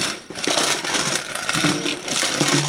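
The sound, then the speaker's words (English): Loud, gritty metallic rattling from an old steel coffee can packed with lids and bottle caps being shaken, a steady clatter with a couple of brief lulls and no talk. “It's a steel canister. Okay. And inside of it, I have strategically placed various lids and caps. Oh, it's an old coffee can with bottle caps in it.”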